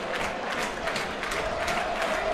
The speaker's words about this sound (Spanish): El público aquí en Yankee Stadium animando con todo, tratando de que New York City salga con la victoria, o por lo menos empate por el momento.